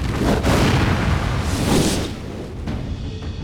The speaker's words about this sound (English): the spearhead glowed white hot as it absorbed Allen's flames and blasted the fire out once more, straight into the earth at Fionn's feet.